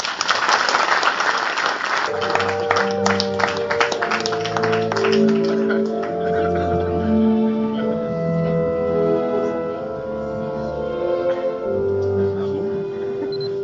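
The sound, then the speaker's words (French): An audience applauds an award-winning author at a comics festival awards ceremony. The clapping is loud and dense at the start, then tapers off as sustained tones take over. “un auteur que je vous demande d'applaudir sans amertume, malgré son talent sans doute plus grand que le vôtre.”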